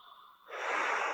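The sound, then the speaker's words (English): A person takes a deep breath during a guided meditation: a steady, airy rush of inhaled air that starts after a quiet moment and continues strongly to the end. “Take a breath.”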